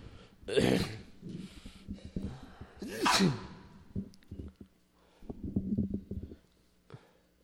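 A sneeze during a religious lecture: a sharp, noisy burst among quieter breaths, snorts and low murmurs, with other brief huffs before and after.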